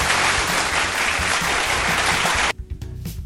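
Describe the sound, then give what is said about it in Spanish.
A loud, dense burst of applause fills the first two and a half seconds, then cuts off abruptly into a few quieter scattered sounds. “Aplausos a todos ellos.”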